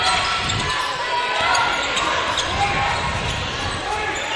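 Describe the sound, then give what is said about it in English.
A basketball dribbled on a court during a game, with repeated low bounces under steady, loud crowd noise. “the left-hand dribble out top.”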